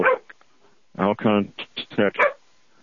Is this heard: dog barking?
yes